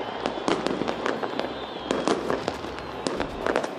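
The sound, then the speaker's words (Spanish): Fireworks burst in Damascus during an anniversary celebration, producing many irregular sharp cracks and pops in quick succession at a moderate, fairly subdued level. “así han sonado los fuegos artificiales el día en el que se cumple el primer aniversario de la caída del régimen de Bashar al-Assad.”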